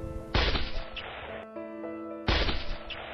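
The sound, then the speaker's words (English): Gunshot in the Kennedy assassination in Dallas: two sharp, loud cracks about two seconds apart, each with a ringing, decaying tail, over sustained musical tones. “Suddenly, there was a sharp, loud shot.”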